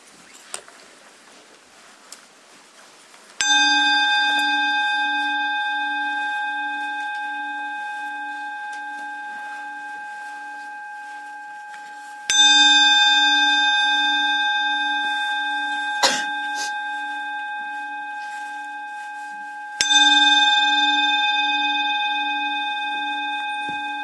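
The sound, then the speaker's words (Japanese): A bell is struck three times, well spaced. Each stroke rings out with a clear sustained tone and a slowly pulsing hum that fades gradually before the next strike. “最初に3つの鐘を鳴らしますので、注意を向けてください。”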